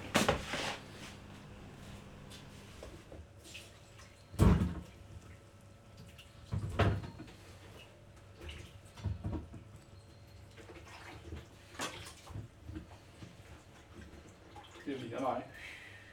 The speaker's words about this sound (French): Il y a vachement d'eau qui sort.